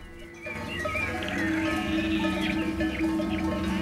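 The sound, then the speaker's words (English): Sheep bleat steadily as dogs herd the flock down into a forested valley. Many overlapping, wavering bleats keep coming throughout, loud and with no talk. “his dogs begin to herd the sheep down into the forested valley”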